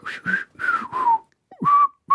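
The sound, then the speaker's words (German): Someone whistles a lively tune in several clear, high notes, some sliding downward, broken by short gaps. “Ciao sagen oder sollen wir noch mal pfeifen?”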